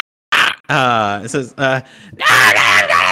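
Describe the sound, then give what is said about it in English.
A voice imitates a wounded lizard-like creature with an alligator-like neck shrieking in panic after being struck by a dart: a string of strained, voiced cries in several bursts, ending in a harsher, rasping wail, loud and close. “The dart pierces this lizard folk in sort of the base of its sort of a, like alligatory neck, and it just like shrieks out like”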